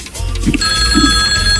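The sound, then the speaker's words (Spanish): Telephone ringing for a call-in, a short bright electronic trill that starts abruptly and holds steady over a low rumbling background. “con la primera llamada telefónica hasta Cerrito. Escuchemos quién está en la línea.”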